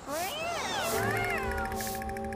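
A cat meows in a few drawn-out, clear calls whose pitch glides up and down, moderately loud and alone.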